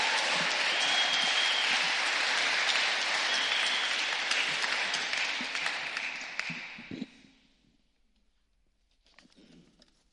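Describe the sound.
Applause from a church audience at Christ Church welcoming a speaker up to the stage: dense, steady clapping holds for about seven seconds, then fades out, leaving only faint scattered sounds.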